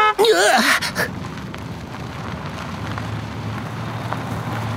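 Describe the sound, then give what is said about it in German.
A small golf cart buggy drives off, settling into a steady, even low rumble after a louder burst of mixed sound at the start. “Dafür haben wir die Buggies. Meinst du diese kleinen Golfkarts da? Genau. Die fahren uns an unser Ziel.”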